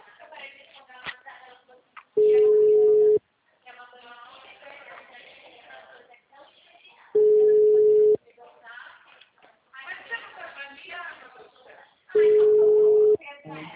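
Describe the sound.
Telephone line tone as a call is redialed after a dropped connection: three steady, mid-pitched one-second beeps at even intervals, with a person talking in the gaps between them.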